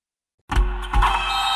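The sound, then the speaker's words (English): Motorized blackout window shades start moving with a sudden low motor hum. The hum holds steady, with a brief swell in loudness partway through. “Oh, no, I meant those blackout motorized shades. MVP of the room.”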